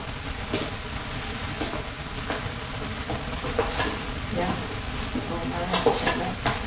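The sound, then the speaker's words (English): A spoon stirs sieved flour and spice into a fruit cake mixture made with egg replacement, tea and self-raising flour. Steady gritty scraping and soft rhythmic strokes continue throughout, with a few louder sweeps. “So now we add the flour. So we stir well. The flour and spice are sieved in together.”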